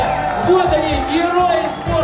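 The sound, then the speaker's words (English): Russian fans cheer at Russia House during the Rio Olympics as medalists walk onto a stage. Mixed shouts and whoops rise from a lively crowd, blended with talking voices. “And last night, people here cheered as they watched two Russian bronze medalists walk onto the stage waving.”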